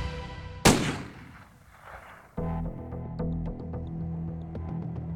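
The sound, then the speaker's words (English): A handgun fires once: a sharp, loud crack that quickly fades into quieter noise, followed by steady low background tones with no voices. “the teenager raised the gun and fired.”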